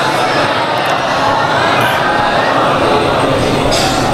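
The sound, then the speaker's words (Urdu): An audience recites durood together aloud. Many voices merge into a loud, continuous wash of chanting that stays steady throughout. “سب مل کر ایک بلند آواز سے درود پڑھ دے محمد اور ان کی آل پر.”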